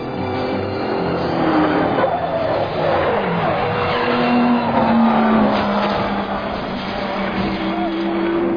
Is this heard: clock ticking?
no